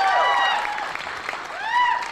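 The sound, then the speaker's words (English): Audience applause at a science talk, a moderate wash of clapping lasting about two seconds with voices rising over it near the start and again at the end. “So can I have a round of applause for what South Dakota has done for science?”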